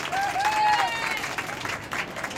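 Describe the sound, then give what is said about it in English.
Audience applause after a panel of experts: a short burst of steady, dense clapping at moderate volume, with a faint voice briefly heard over it near the start. “Let's have a round of applause for our experts.”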